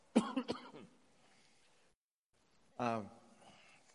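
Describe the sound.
Throat clearing from someone with a tickle in the throat: two short, rough bursts close together, then a pause before another brief voiced rasp.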